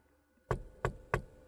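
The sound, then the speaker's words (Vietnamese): Three knocks on the door of a room, sharp, evenly spaced thuds about a third of a second apart, standing out clearly against a quiet background. “mạnh dạn gõ cửa”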